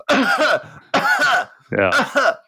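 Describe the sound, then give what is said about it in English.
A voice imitates actors' theatrical coughing from smoke inhalation with three loud, drawn-out, voiced coughing bursts in a row, each exaggerated and rasping. “every time the smoke comes in, it leads to this fabulous cough acting. Which is, you know, a lot of actors going,”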